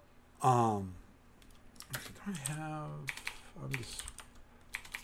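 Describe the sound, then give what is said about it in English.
Fingers tap and click on a computer keyboard in quick, uneven bursts of light keystrokes while a person talks over them. “apologize for the tapping and clicking, and let's see if I can find it.”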